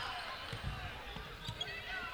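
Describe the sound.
A basketball being dribbled on the court during a women's basketball game: a few dull, low bounces over steady crowd noise, with faint indistinct talk.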